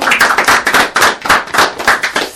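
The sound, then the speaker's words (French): Audience applauding a small performing troupe, with loud, sharp claps landing together in an even, quick rhythm and many bursts repeating steadily throughout. “On peut les applaudir, tout le monde. On peut les applaudir, allez.”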